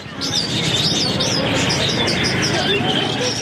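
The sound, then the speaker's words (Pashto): Birds and pigeons at a bird market in central Kandahar: quick, high chirps and tweets repeating over soft cooing, set against a constant, dense background noise that never drops away. “د کندهار ښار په زړه کې د مرغانو دی بازار کې سلګونه کسان د مرغانو کاروبار کوي”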